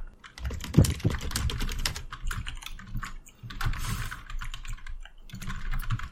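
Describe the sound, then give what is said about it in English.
Typing on a computer keyboard: many quick, uneven clicks come in bursts separated by brief pauses. The keystrokes sound fairly faint and are heard alone, without talk. “having to type a bunch of shit now”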